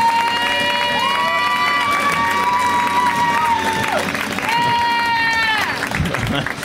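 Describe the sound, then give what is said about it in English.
A comedy club audience applauds and cheers as the next comic, one from the UK, is introduced. Steady, loud clapping runs throughout, with high whoops and cheering voices rising over it. “Next comic for you comes all the way from the UK. You guys, give it up for Chris Martin.”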